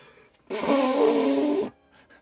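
A stuffy nose is blown into a tissue in one long, honking blast lasting just over a second, buzzy and fairly loud, with quiet before and after.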